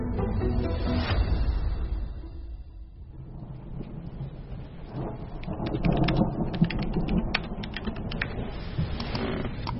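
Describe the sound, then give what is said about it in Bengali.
Heavy afternoon rain pours steadily throughout, a dense hiss of falling drops with crackling patter on surfaces and a low rumble of thunder underneath, with no voices. “সেদিন বিকেল থেকেই বৃষ্টি”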